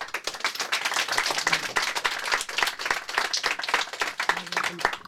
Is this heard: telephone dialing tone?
no